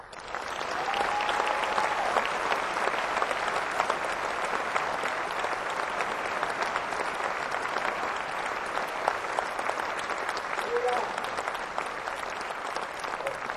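Audience applause welcoming a guest onto the stage at a music venue: dense, steady clapping from a large crowd sustains evenly at a strong level for about thirteen seconds with no break.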